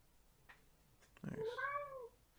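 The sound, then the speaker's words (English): A cat meowing: one clear, drawn-out meow with a bright harmonic tone, fairly faint, coming after a few soft background noises. “Was that a cat? That was a cat.”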